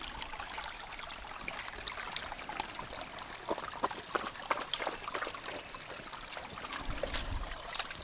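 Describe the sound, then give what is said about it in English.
Cold stream water trickles and flows along a mountain loop trail near Dahlonega, Georgia, with a faint, continuous babble scattered with soft splashes and gurgles. No voices are heard. “To take a little break in the stream. Let's see. The water's nice and cold.”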